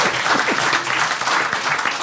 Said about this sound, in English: applaud now